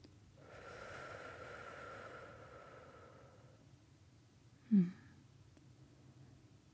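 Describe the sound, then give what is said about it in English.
Slow, deep breathing: a soft, long, airy exhale drawn out over a few seconds, followed after a pause by one short, sharp sniff through the nose, all very faint. “You can join me if you want, or you can just listen to my breath. Maybe it'll help you feel centered and present.”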